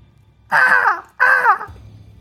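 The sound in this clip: A human voice imitates the call of a red-crowned hawk with two drawn-out, harmonic, wailing cries, each lasting about half a second, separated by a brief pause.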